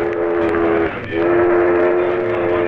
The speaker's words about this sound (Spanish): Atención pasajeros, tren número 2, con destino a Girardot e Ibagué, conectado por carretera al ferrocarril del Pacífico, está próximo a salir.